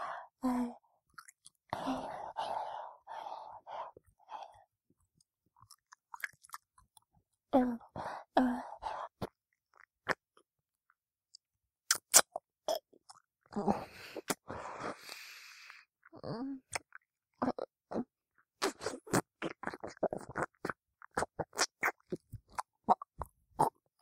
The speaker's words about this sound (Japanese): じゃあまた、今度はベロでいっぱいよしよししてあげようか。